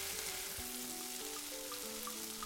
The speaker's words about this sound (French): Dans une poêle, faire fondre le shampoing. Verser le saladier dans la poêle. Bien faire cuire.